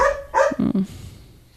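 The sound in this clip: A dog barks a few short, sharp times in quick succession, the barks followed by a fading tail.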